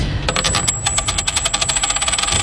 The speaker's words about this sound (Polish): To rzut monetą.